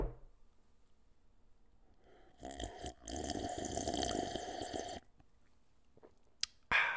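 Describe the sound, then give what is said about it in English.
Quiet, slurping sip of hazelnut coffee with cream, lasting about two seconds, with a faint swallow and small clicks in near silence afterward. “of my most delicious coffee, right? I just want to enjoy it. I want to enjoy every sip.”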